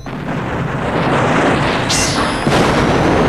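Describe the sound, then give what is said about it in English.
A shoulder-mounted robot laser fires at a vehicle: a loud, sustained roaring blast with a brief high whistling sweep midway and a second sharp burst near the end. “Another robot raises its head, and a shoulder-mounted laser fires at a vehicle.”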